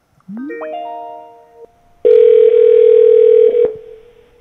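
Telephone tones while placing a call: a softer steady tone first, a short silence, then a loud, unbroken dial tone holding for about one and a half seconds before cutting off.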